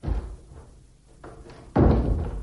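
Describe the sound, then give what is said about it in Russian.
Doors are shut with a few heavy, dull thuds, the last one the loudest, separated by a quieter stretch. “Затворите двери.”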